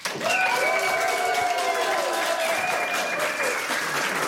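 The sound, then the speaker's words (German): A studio audience breaks into loud applause for a band introduced before its live performance, mixed with cheers and whoops; after a quick swell at the start, the clapping stays full and steady until it eases slightly at the end. “Einen ganz großen Applaus.”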